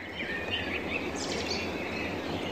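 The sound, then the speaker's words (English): Birdsong, with faint high chirps and trills rising from a steady wash of outdoor hiss and no voices. “Ah, the sound of birdsong.”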